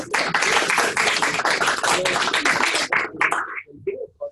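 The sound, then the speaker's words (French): Members at an association's general meeting applaud, dense clapping that is fairly loud for about three seconds before thinning into a few scattered, fading claps. “On vous applaudit.”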